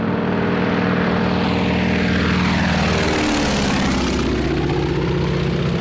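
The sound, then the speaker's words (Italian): Loud, continuous propeller drone of a Lockheed Vega monoplane in flight, a steady buzzing engine roar whose tone dips and shifts partway through as the plane passes. “Da lì era decollato a bordo del suo monoplano Lockheed Vega, da solo.”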